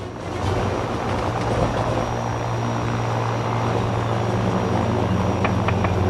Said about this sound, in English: The aircraft continues to soar through the sky.